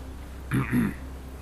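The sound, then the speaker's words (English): A man clears his throat in two short, rough bursts, gravelly and low, with quiet around them. “He cleared his throat.”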